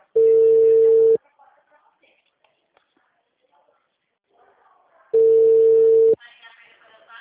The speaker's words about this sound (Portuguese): Tô ligando pra ele agora.